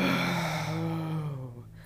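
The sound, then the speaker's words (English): A deep inhale through the nose and then a full exhale, done as a breathing exercise to calm the nervous system. It is one steady, fairly loud, airy breath with a faint voiced tone, tapering softly at the end. “So it would be like an inhale through our nose, right? And then fully.”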